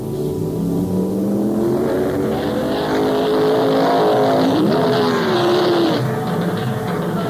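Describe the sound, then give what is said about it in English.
A 1972 Ferrari Dino 246 GT sports car in flaming fire red drives past with a loud, continuous engine note. The pitch climbs gradually, revs sharply once near the middle, then settles into a steady drone. “prize package number 158 is a brand new 1972 Flaming Fire Red 246 GT Pininfarina Dino Ferrari”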